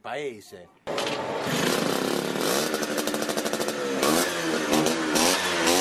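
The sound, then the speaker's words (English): Engine of an Ape three-wheeled utility vehicle on a fan tour through the Tuscan countryside: after a brief voice, a loud small engine kicks in with a buzzing, pulsing drone that revs and holds steady to the end. “The Ape was the means of transportation for everyone. Workers, carpenters, artisans, farmers. The Ape was the vehicle to run the small economy of a village.”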